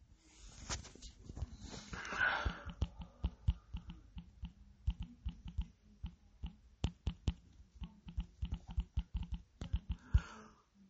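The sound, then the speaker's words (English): Typing on a computer keyboard: many rapid, irregular clicks and key taps in bursts and pauses, fairly faint and steady throughout, with no voices. “I just typed everything backwards.”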